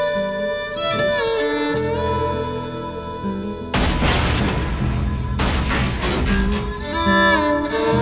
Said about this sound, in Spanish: dispara al motor de su vieja cortacésped, inutilizándola por completo.